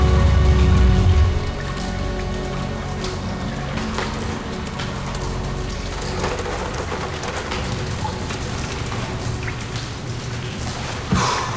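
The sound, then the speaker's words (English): Heavy rain falls on a car parked in several inches of water in a flooded underpass, a steady hissing patter with scattered drips that is slightly louder at the very start. “The heavy rain has flooded the underpass, and Neil parks the car”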